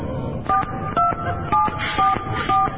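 A telephone being dialled: several short beeping keypad tones in a steady, evenly spaced sequence, each a brief clear electronic tone over a low background hum.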